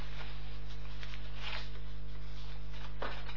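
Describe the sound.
A page of a Zohar study book is turned to the next page, 37, during a lesson: a couple of brief, soft papery rustles over a steady low electrical hum, with no talking.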